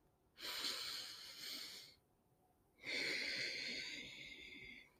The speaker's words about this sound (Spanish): Van a respirar siempre, inhalar y exhalar por la nariz. Vamos a hacer tres respiraciones.